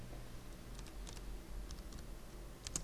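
Soft, irregular keystrokes on a computer keyboard come from someone editing code. A few faint, scattered clicks sit over a low background hum, with no speech.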